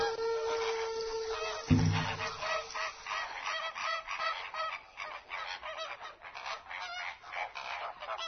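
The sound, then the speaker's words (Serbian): Flamingos honking as they take flight: loud, overlapping goose-like honks and nasal calls repeat throughout. “Ova ptica divno izgleda, i to je najbolje, da je samo gledamo i uživamo. Jer ako im se nešto ne dopadne, rašire na izgled smešna krila i uz gakanje odlete hitro”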